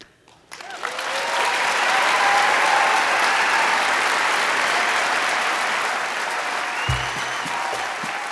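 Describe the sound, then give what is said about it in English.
Standing ovation from an audience of about 1,200 people in Anchorage at a live storytelling show. After a brief quiet start, the clapping swells quickly into a loud, sustained roar that holds steady to the end. “Carol Seppilu received a standing ovation from the audience in Anchorage that night. 1,200 people literally jumped to their feet.”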